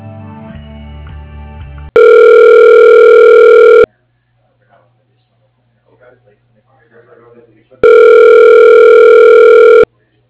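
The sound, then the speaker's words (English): Two long, steady telephone tones sound as a call is transferred to voicemail. Each lasts about two seconds, and a quiet gap with faint background noise separates them. “I can send you to his voicemail.”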